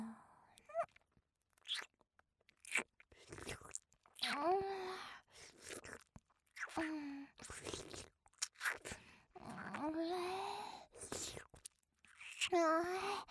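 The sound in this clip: Wet mouth sucking sounds: soft slurps, smacks and clicks come and go, mixed with breathy whispered vocalising and sighs, quiet and close.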